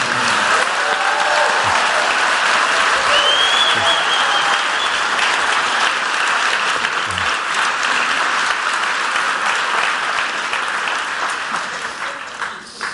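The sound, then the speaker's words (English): A church audience applauds to welcome a guest: loud, dense clapping holds steady for about thirteen seconds and thins slightly toward the end. “when we get guests here, we give them the biggest ovation that we possibly can. So let's give Ken a Queen's Boulevard welcome.”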